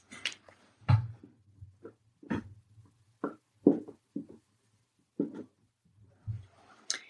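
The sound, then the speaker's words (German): Someone writing something down: a sparse series of short, scratchy strokes and taps with uneven pauses, faint over a low steady hum, with no speech. “Und ich schreibe das mal auf und dann erkläre ich es.”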